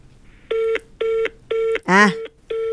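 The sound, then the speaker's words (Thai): Telephone keypad tones ring out as a number is dialed for a Bangkok social security office: four steady, evenly spaced beeps, with a brief voice cutting in between the third and fourth. “เบอร์โทรของสำนักงานประกันสังคมกรุงเทพมหานครพื้นที่3ก็ยังโทรไม่ติดเหมือนเดิม”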